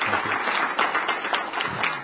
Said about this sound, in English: And I actually would like everyone to applaud the director's leadership and his outstanding service to our country.